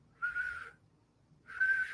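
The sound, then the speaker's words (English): A man whistles to call his pig: two short, steady, fairly high whistled notes with a pause of about a second between them. The whistles are heard alone, with no talk. “trying to whistle to his pig.”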